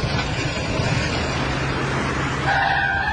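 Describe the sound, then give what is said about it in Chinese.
A car drives off in a hurry with loud, steady engine and road noise throughout, and a higher whine rises toward the end. “我哋快啲开车走啦！”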